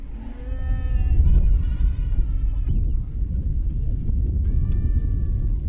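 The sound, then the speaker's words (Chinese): Livestock bleating on a nomads' winter grazing ground: a few drawn-out, wavering bleats rise over a loud, steady low rumble, with a quieter stretch between them. “牲口就是我们的命，我们生活中需要的一切都要靠它们。”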